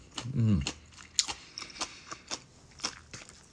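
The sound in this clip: Crunchy chewing of fukujinzuke pickles, with a brief voiced sound near the start followed by a steady series of crisp bites and crunches, quiet and close.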